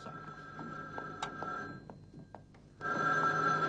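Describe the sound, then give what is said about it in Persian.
A telephone rings with a bright electronic tone that starts near the end, after a stretch of soft clicks and quiet background clatter. “8 زنگ زد تا جواب بدی.”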